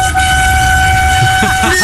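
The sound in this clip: A voice imitates a steam train whistle, holding a steady two-note tone for the whole clip. It sounds loud over a rough, noisy background.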